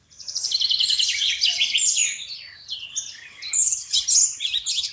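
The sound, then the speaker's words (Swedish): Eurasian blackcap song: rapid, bright, chattering warbles in busy phrases, loud and nearly continuous, with a short softer lull before a final burst. “Först kommer svarthättan som låter så här.”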